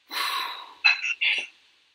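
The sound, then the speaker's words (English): A group exhaling deeply together on cue during a breathing exercise: a long breathy rush followed by two shorter, sharper puffs of air, fairly loud and without talk. “So everyone on the count of three. One, two, three. Big exhale.”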